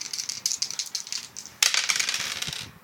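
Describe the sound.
Dice rolled during a tabletop role-playing game make a quick run of faint rattling clicks, then a sudden louder clatter that tumbles and settles.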